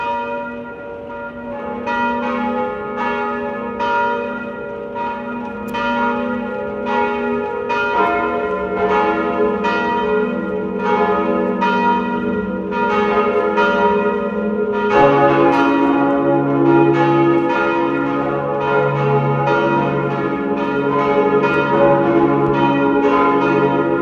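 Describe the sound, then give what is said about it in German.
Church bells of a baroque parish and pilgrimage church on a hilltop in Lower Austria ring loudly at noon with many steady, overlapping strikes. A deeper bell joins partway through, filling out the peal. “Es ist 12 Uhr. Sie hören die Glocken der Pfarr- und Wallfahrtskirche Sonntagberg in Niederösterreich.”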